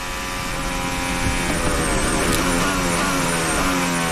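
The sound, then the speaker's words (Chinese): A Formula One racing car's engine runs at full throttle with its rear wing flap open, producing a loud, sustained, high-pitched drone with dense harmonics and no break. “刚刚的导播呢也是通过汉密尔顿车辆的这个尾部的这个视角不断的展现他们这个翻转尾翼， 对， 现在是全油门的状态。”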